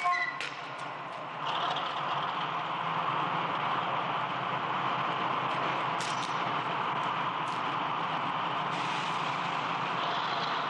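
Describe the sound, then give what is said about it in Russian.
A diesel locomotive passing without slowing, hauling a flatcar loaded with ceramic insulators: a steady, broad rumbling roar that holds level throughout, with a few faint clicks and brief squeaks on top. “Не снижая хода, проходит тепловоз с прицепом платформой, груженной керамическими изоляторами.”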